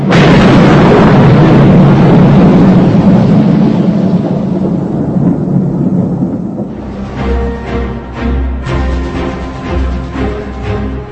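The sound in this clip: Heavy thunder from a storm with lightning and hail: a loud, dense rumble rolls for several seconds, then eases into a rougher, more broken roll.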